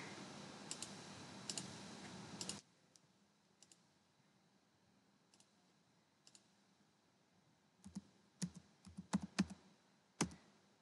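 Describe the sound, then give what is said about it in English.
Typing a username and password on a computer keyboard at a login page: steady hiss with light key clicks at first, then sparse single keystrokes, then a quick cluster of clicks near the end. “You have to just enter your username and password and you have to click the login.”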